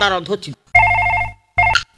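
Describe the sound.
A landline telephone ringing at home in two loud electronic trills, the second one shorter, with a voice heard briefly before the first ring.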